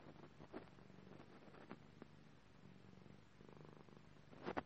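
Soft purring of a cat while it is being played with, a faint, steady low rumble of rhythmic pulses, with a brief rustling burst near the end.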